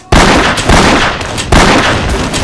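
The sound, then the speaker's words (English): Three loud shots from a .30-caliber rifle at a shooting range with targets 75 yards off, each a sharp crack followed by a long ringing tail, unevenly spaced. “Commence firing at your discretion.”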